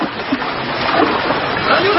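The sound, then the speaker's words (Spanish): Splashing, sloshing water as a man is pushed into the water and flails about: a dense, steady wash that runs the whole length without a single sharp impact. “Él cae al agua.”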